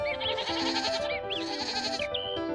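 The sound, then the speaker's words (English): Goats bleating at pasture, a few wavering, overlapping bleats of varied pitch, loud over a steady low background. “Heidi enjoyed each day by going to pasture with Peter and goats.”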